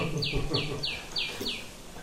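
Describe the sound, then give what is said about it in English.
Five quick, high, downward-sweeping chirps from a tiny sunbird, evenly spaced and fairly clear, with faint low sounds underneath. “The bird making that sound is a little tiny sunbird. It's only about that big.”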